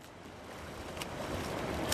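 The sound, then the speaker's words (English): Swimmers paddle back and forth across a swimming pool, making a faint, steady wash of churning water broken by a few soft splashes. “Swimmers are paddling their way back and forth across the pool.”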